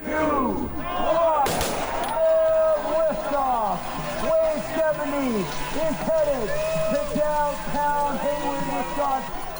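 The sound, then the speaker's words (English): Start-line sounds from the Wave 70 start of the Birkie 50-kilometer cross-country ski race, held for skiers aged 70 or older. Many voices talk and call over one another, and a single sharp bang sounds early on. “Here's the sound for the Wave 70 start line last year.”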